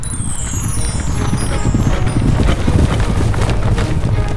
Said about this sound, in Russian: Скачет. Да так, что пыль столбом. И земля дрожит.